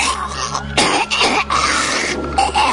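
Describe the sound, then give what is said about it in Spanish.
An old woman coughs and chokes. A few harsh, rough bursts break through a constant low hum and a dense, noisy background. “Su tos se confundió con una serie de ahogos que le impedían lisa y llanamente respirar.”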